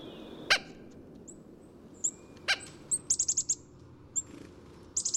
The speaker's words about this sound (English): That perky little chickadee flitting back and forth for sunflower seeds from your feeder eats the equivalent of 35% of its weight.